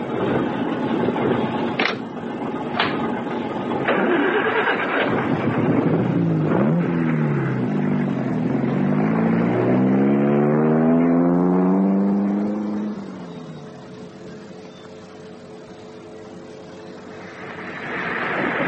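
A car engine droning steadily as the vehicle drives with a military column on a road with rocks and potholes. Its harmonic whine wavers up and down, then sinks in pitch and fades quieter toward the end.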